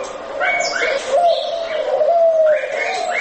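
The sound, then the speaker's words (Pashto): Caged turtle doves call alongside other birds at a Kabul bird market, sending soft cooing and whistling notes under a continuous speaking voice. “د کابل د کافروشي په کوڅه کې د نورو مرغانو تر څنګ په آرتو آرتو څلور کونجه قفسونو کې د قمریګانو نارې هم تر غوږ کېږي.”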